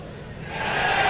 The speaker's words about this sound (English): Pitch is a strike, counts to 0-2. Let this Target Field crowd tell the story there as Dreckman fills in the blanks.